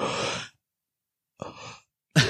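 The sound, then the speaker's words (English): A voice imitates a loud inhale, giving a few harsh, breathy gasps of air separated by silent gaps, each one short and noisy. “they're inhaling that loudly every time.”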